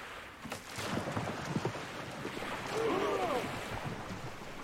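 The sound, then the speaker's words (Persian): Oars rowing a boat through water in ninth-century Northumbria, a steady wash of water and wind noise running throughout. “همه آماده ی پارو زدن. پارو بزنید، پارو بزنید.”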